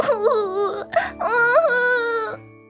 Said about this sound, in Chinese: 说着，他伤心的哭了起来。